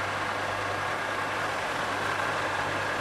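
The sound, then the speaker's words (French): A metal lathe runs in a workshop with a steady, even mechanical drone and a low hum beneath it, unchanging in level for the whole stretch. “Et ça, quand tu es arrivé, je travaillais là-dessus. C'est une... C'est un tour à métaux. C'est moins bruyant, ça.”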